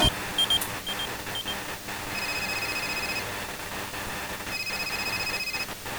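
A telephone ringing during a phone call, two faint electronic ring bursts sounding under a dense wash of background noise.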